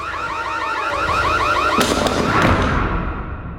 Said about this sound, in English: switches on the fire alarm on the counter.